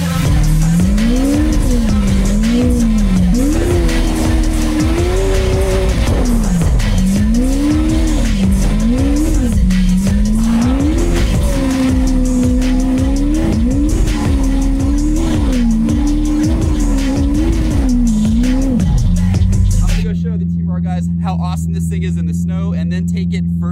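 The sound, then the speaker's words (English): A Lamborghini Aventador S sports car engine revs hard while drifting in snow, its loud roar repeatedly rising and falling in pitch with tire squeal, then settling into a steady low drone near the end. “This might be a bad idea, but we're gonna drift the Aventador Lamborghini S in the snow.”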